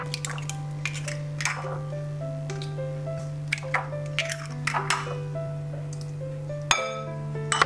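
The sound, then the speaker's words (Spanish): Four eggs cracked into a bowl for a cake batter: many light clinks, taps and wet drips in an irregular rhythm, set against a soft melodic backing of steady tones. “Pongo los 4 huevos.”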